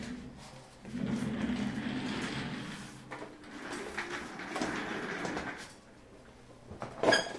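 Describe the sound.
Shuffling, sliding and scraping sounds as someone gets up and moves to another chair at a desk with a USB microphone, coming in a few longer rustling stretches and ending with a sharper knock.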